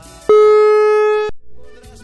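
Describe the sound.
Ringback tone on a call to an unanswered prize winner: a single loud, steady, buzzy tone about a second long, followed by a fainter low hum.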